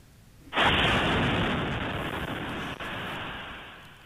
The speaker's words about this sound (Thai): ภาพจากกล้องวงจรปิดเผยให้เห็นวินาทีที่ย่านชุมชนแห่งหนึ่งในเมืองคาคิฟทางตอนเหนือของยูเครนถูกโจมตีทางอากาศเมื่อวานนี้ค่ะจนเกิดระเบิดขึ้นอย่างรุนแรง